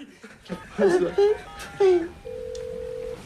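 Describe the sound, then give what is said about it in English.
Keypad tones from a mobile phone being dialled, heard over voices and laughter: a few short beeps, then one long, steady, loud tone lasting nearly a second. “pulls out his mobile phone and dials.”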